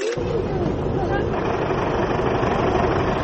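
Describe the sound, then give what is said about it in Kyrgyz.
An old bus engine runs on the edge of a village, a steady, unbroken rumbling drone that begins abruptly and holds an even level to the end. “Майорск айылынын четинде эски автобус моторун оталдырып, кайдадыр жөнөгөн турат.”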